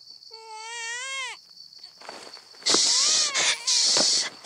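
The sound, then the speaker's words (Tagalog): A girl crying: a high, drawn-out wail that sinks in pitch, then harsher, louder bursts of sobbing cries after a short pause. “huwag ka nang umiyak. Nandito na si nanay.”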